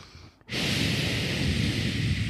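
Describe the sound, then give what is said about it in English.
A breath is pushed through a relaxator breath-training tool after an inhale through the nose. A loud, steady rush of airy hiss starts suddenly after a brief quiet moment and continues without a break to the end. “I got a relaxator, actually, and this is what it sounds like. So you breathe in through your nose, and then”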